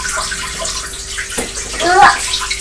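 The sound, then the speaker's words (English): Water is poured through a small green sieve during a child's water play, giving a continuous splashing trickle with a brief louder gush near the end and voices heard faintly. “this is a small green sieve. No. Shall we put some water through that and see what it looks like? Can you see it coming through the holes?”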